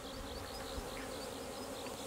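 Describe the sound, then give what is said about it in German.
Honeybee drones buzzing outside a hive during drone flight: a steady, dense, faint hum of many overlapping wingbeats that runs without a break. No voices. “Siehst du die ganzen Drohnen? Da sind ungefähr bald 30, 40 Drohnen draußen hier. Das bedeutet, dass der Drohnenflug da ist.”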